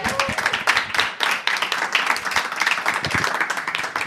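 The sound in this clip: Live audience clapping at a comedy festival show, many sharp, irregular claps forming a lively patter that runs throughout with one short lull.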